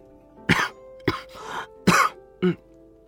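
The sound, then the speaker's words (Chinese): A man gives four short, rough coughs, with a throaty rasp trailing after the second before the last two sharp bursts. “展昭咳嗽了一声，翻身躺下。”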